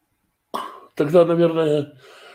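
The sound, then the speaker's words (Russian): A single short cough bursts out, followed almost at once by a longer voiced, tonal vocal sound that holds steady before fading out. “Кашель, прошу прощения.”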